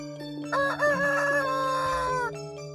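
A rooster crows once in a long, drawn-out harmonic call of nearly two seconds, loud and clear over a steady low hum. The bird is a fighting cock from a cockfighting setting, handed over to be cared for.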